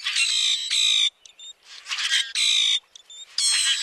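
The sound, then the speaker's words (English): A common grackle sings its metallic song: harsh, buzzy, grating bursts repeated several times, broken by short squeaky notes. The song is fairly loud and heard alone. “Some birds sound almost mechanical, like the metallic song of the common grackle”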